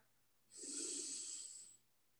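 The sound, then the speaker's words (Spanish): A single long, deep breath, part of a guided breathing exercise, rushes softly and evenly for over a second in otherwise quiet surroundings. “Inhala profundo. Y exhala. Inhala profundo.”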